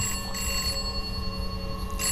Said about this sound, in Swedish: jag letar mig fram mm. till telefonen